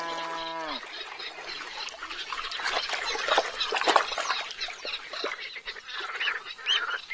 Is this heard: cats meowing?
no